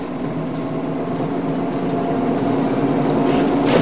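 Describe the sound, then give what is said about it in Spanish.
Engine of a car in a 1993 drama speeding at full throttle toward another vehicle, a continuous low rumble that grows slightly louder toward the end. “El coche vuelve a dirigirse al otro vehículo a toda velocidad.”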